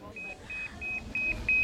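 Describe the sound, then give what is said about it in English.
Hospital pager bleeping: a rapid, steady run of many short high-pitched beeps, fairly faint against background noise. “This is how we are being paged. If somebody is looking for us, this is what they do. The bleep will go beep, beep, beep.”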